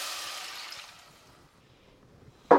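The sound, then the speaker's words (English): Liquid pouring as three cups of vegetable broth go into a pan of lentils for a one-pot cheesy Mexican lentil, black bean and rice dish: a soft, steady hiss that tapers away, with a brief louder burst at the end. “And now add your vegetable broth. 3 cups of vegetable broth going into the pan.”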